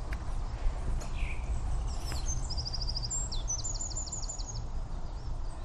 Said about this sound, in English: I can see the song thrush. It's silhouette. A nice wren.